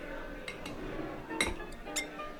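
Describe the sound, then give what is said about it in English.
An ice cube is dropped into a glass while a cocktail is being mixed, giving a few sharp, light glassy clinks over a steady low background. “I'm going to actually put an ice cube in mine.”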